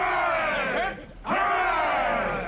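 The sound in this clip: A ship's crew shouts a loud cheer for their captain, with two sustained group shouts separated by a brief quiet gap and many voices roaring together.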